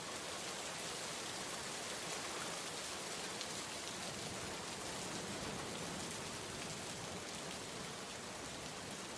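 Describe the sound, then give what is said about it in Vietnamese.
Steady rain pours down, the season's first downpour over a village and its fields, a dense, even hiss that runs unbroken throughout with no voices. “Cơn mưa đầu mùa vừa trút xuống Kadambini, dân làng đã ùa chạy ra đồng”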